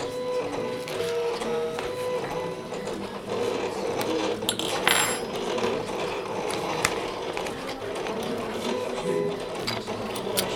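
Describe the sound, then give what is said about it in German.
A label printer prints a name label with a steady mechanical whirring and buzzing. Faint clicks and rattles run throughout, with no talking. “Und jetzt wird es gedruckt.”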